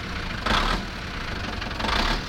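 A boat engine is put in gear and its throttle pushed ahead. A steady, rough, knocking rumble runs throughout and swells twice briefly, with no talk.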